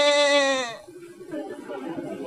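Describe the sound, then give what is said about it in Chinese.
A voice imitates a goat's bleat with a single drawn-out, nasal, strongly harmonic 'meh', delivered as part of a spoken tongue-twister, then drops to quieter low sounds. “山羊上山，山碰山羊脚，咩。”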